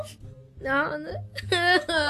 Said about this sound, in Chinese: 啊，老弟哭了， 老弟在哭